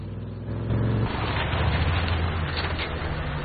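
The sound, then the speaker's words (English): A truck engine starting up and pulling away, a low rumbling drone that swells after a brief quieter moment and then holds at a steady, moderately loud level. “With a serious expression, Dennis fires up the truck and they pull away after Jennifer's car.”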